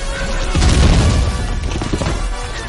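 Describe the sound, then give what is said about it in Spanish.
X-wing starfighters fire blasters down on troops in a Star Wars science-fiction film. A loud, dense barrage of booming blasts and crashes runs through the whole clip, heaviest near the start. “Un ala X derriba a un Tai. Un compañero persigue a otro. Lo derriba. Los ala X disparan sobre las tropas.”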